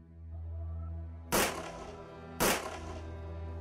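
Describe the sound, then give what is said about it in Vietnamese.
Two sudden gunshots crack out about a second apart, each a sharp, loud bang with a brief decaying tail, over a low steady hum. “Bỗng nhiên có tiếng súng nổ đột ngột vang lên.”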